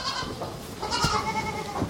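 Goat kids and their mothers bleat as the kids are let back in with the herd. Overlapping nasal bleats rise and fall continuously, some higher and some lower, with no pause.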